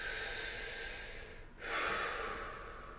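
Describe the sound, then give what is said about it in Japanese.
A nervous person takes a deep breath to calm down: a long, steady airy breath that swells noticeably louder partway through and stays breathy to the end, with no talk. “ちょっと待ってもらっていいですかちょっと深呼吸しますね。”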